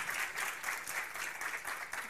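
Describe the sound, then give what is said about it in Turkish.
Audience applause, a dense, steady patter of many hands clapping, moderately loud and continuous throughout. “Alkış hak ediyor, gönlümüzle alkışlıyoruz kızımızı.”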